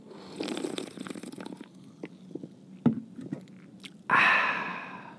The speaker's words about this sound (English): Let me open up my my Diet Coke right here, take a slurp.